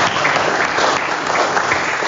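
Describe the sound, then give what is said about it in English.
An audience applauds during a personal talk about addiction and recovery. The clapping is dense, loud and continuous throughout, with no distinct voices over it. “Don't applaud too loud.”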